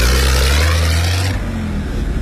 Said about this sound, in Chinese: 后面的车来了，看看。